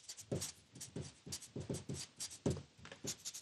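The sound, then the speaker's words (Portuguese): Handwriting with a pen on paper: many short, scratchy strokes in a quick, uneven rhythm, fairly clear and with no speech over them. “Meu, vou escrever aqui, meu namorado ou minha namorada”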